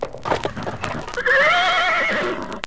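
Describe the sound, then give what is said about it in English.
Horses galloping furiously along a woodland path, with thudding hoofbeats for about a second, then a loud, quavering whinny that holds for over a second before trailing off. “galloping furiously down a path through the woods, they suddenly come to a clearing.”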